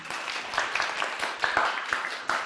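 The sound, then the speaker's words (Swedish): Quiet applause from a class for a pupil: a loose patter of hand claps, soft and uneven, with a few slightly sharper claps standing out. “En applåd för Klara.”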